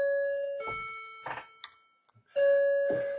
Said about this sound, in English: And my bells are in the background signifying I've already got an hour.